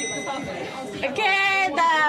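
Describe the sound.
A small bell rings at a bar in Japan to order its signature shot. Two bright strikes leave sustained, shimmering tones over the murmur of people talking.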